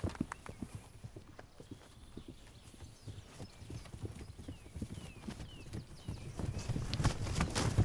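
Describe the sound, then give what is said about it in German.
Hoofbeats of a herd of horses moving toward a newborn foal: many steady clip-clop hoof falls that overlap into a continuous shuffle and grow slightly louder toward the end. “Noch einmal herrscht Bewegung. Die Herde will zum neugeborenen Fohlen, ist aber entspannter als zuvor.”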